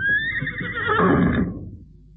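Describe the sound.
A horse neighs loudly, a high squealing whinny that breaks into lower, rougher tones before fading to quiet.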